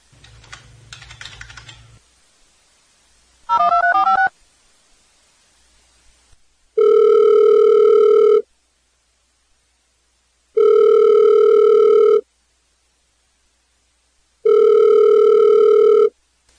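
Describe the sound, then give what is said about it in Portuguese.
A telephone call to a radio guest begins with a burst of clattering key presses and a short warbling tone. Three long, even ringing tones follow, each separated by a pause of silence. “Vamos então telefonar para ela, que já está nos aguardando a ligação.”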